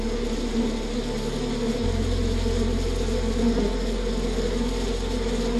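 Honeybees buzz around a hive in a dense, loud, unbroken drone that holds steady from start to finish.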